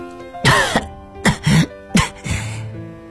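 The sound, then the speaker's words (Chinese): A woman, bleeding and sweat-soaked in the dust under a hot sun, coughs again and again in uneven, harsh, throaty bursts, some coming in quick pairs, with a hoarse, breathy tail at the end. “她不断地咳嗽着”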